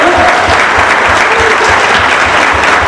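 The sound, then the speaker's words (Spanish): Applause from a crowd at a public hearing on water-system devastation in San Miguel: dense, steady clapping that stays loud and even, with no break across the whole three seconds. “Démosle un aplauso.”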